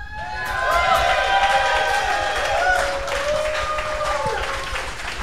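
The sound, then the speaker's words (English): A live audience at Club Garibaldi applauds and cheers. Whoops and shouts ring out over a thick bed of clapping that stays loud for about five seconds before easing slightly. “Out there in Radio Land, you may hear that applause. That's because Local Live is coming to you from Club Garibaldi tonight, and we have a live audience here. Let's hear once again from our live audience.”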